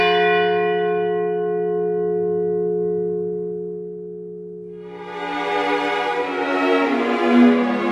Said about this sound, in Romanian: Unul după miezul nopții sună rar în vecinătate.